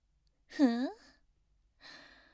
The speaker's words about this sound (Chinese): 好像还有从脖子里、喉咙里发出来的像破风箱一样的声音。怎么了？想呼吸吗？